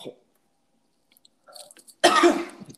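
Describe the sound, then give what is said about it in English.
A person coughs after getting choked up mid-sentence: one loud, harsh burst of coughing that follows a stretch of near silence. “I'm coughing.”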